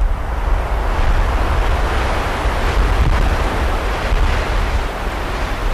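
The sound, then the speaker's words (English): Wind moves through hemlock forest trees at the tree line in the Chugach Mountains outside Anchorage. It makes a dense, steady rushing roar, strong in the low end, with only slight swells and no pauses. “This particular recording was made in a hemlock forest, right at the tree line in the Chugach Mountains, outside of Anchorage, and you can hear the wind moving through these trees.”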